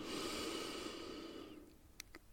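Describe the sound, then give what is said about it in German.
A slow, soft inhale during a guided meditation session. The quiet, airy breath lasts about a second and a half and fades away, followed by a couple of faint, brief clicks. “Einatmen.”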